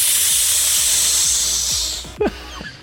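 A stage smoke machine hisses in a steady, bright rush for about two seconds before fading, followed by a brief low knock and a few faint taps.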